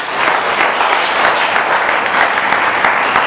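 Sustained applause from a church audience during a French-language worship service, loud and dense, holding steady for the whole stretch without a pause.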